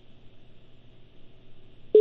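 Telephone line tones from a failed phone call: a faint, steady low hum runs throughout, then a loud, steady tone cuts in only at the very end.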